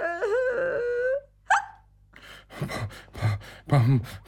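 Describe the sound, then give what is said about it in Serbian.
Exaggerated hiccups from a patient at a doctor's clinic in a comedy sketch: a drawn-out wavering vocal sound, then one sharp, high hiccup, followed by several further voiced bursts. “Oboljenje štucavica. Molim vas. Morate mi pomoći.”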